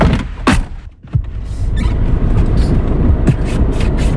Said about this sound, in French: on est maintenant dans votre voiture